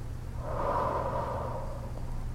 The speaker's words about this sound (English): One more time, breathe in. Hold and exhale.